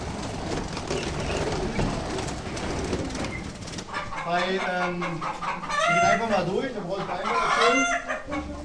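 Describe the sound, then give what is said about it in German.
Quails, white and very dark birds, call while being handled: a few seconds of rustling noise give way to repeated warbling, chirping cries that rise and fall in pitch. “So, hier haben wir zum Beispiel auch mal weiße Wachteln. Ja? Also es gibt ja verschiedene Farben. Hier haben wir eine weiße und dann haben wir auch eine ganz dunkle. Ich greife die mal eben.”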